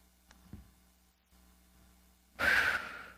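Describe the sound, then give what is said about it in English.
A single deep breath taken as a relaxation exercise before a cooking segment: after near silence, a loud, airy, sigh-like exhale swells suddenly and then tapers off over the final second. “I think I'll just deep breathe here.”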